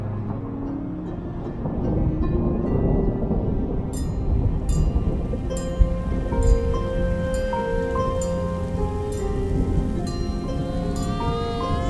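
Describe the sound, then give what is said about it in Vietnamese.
Thunder rumbles through steady heavy rain, with a sharper crash near the middle, while bright ringing bell-like tones strike repeatedly over the storm. “chớp rạch ngang ầm ầm”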